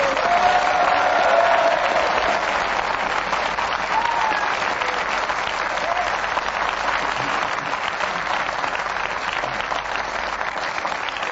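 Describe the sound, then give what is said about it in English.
Studio audience applause for the winner of a panel game, a dense, steady roar of clapping that holds at an even loudness for the full length, with no talk over it. “What is termed a popular win, as you heard by the audience reaction in the studio here.”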